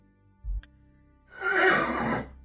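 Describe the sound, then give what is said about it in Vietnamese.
A horse neighs loudly in one long, harsh whinny lasting nearly a second, preceded by a brief low thump, with no voices present. “Đột nhiên con ngựa lồng lên, hai chân cất vó.”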